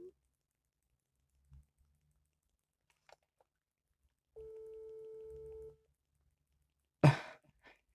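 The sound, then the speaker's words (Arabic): An incoming telephone call rings as a single steady electronic tone lasting over a second amid near silence, followed shortly by a brief burst of voice. “هذا الرقم حاب يحاول يتصل بنا الو مرحبا”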